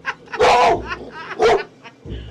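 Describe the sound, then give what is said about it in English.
A tough-looking female dog barks a few times, with loud, high, harmonic yelps separated by short pauses and a softer bark to finish. “Well, she's a beautiful dog, but a tough-looking one.”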